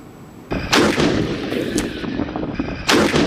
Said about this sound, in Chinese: 新疆军区某团正组织坦克分队展开实弹射击考核